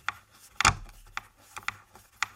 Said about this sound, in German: Und jetzt gib mir den Schraubenzieher.